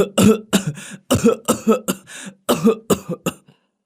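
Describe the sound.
Violent, choking coughing fit from a frail, sickly person, a rapid string of many harsh coughs in uneven bursts with short gaps, trailing off at the end.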